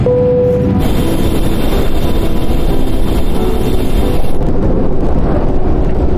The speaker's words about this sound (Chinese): 30分钟后就会上升到巡航高度，感觉飞机声音变小了吧？因为我们不再需要那么大的推力